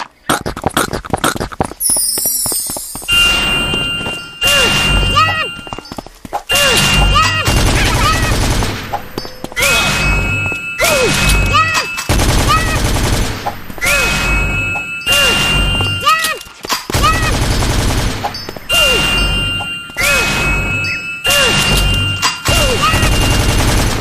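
Heavy gunfire in loud, rapid bursts, many shots clattering in quick succession with brief pauses between volleys, continuing for the whole stretch.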